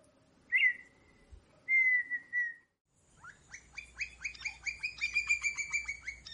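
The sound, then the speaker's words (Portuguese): Song of a rare grassland bird of pastures and low vegetation, also known as partridge: two clear whistled notes, then a rapid run of many sharp repeated notes, heard alone. “Cada vez mais raro, ele adora locais de pastagens e vegetações rasteiras. Também é chamado de perdiz e seu canto é inigualável.”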